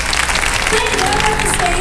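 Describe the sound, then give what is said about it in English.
Live audience applause as a drummer is introduced on stage: dense, lively clapping that carries throughout while a man's voice speaks over it. “round of applause, little Stevie, on the drums”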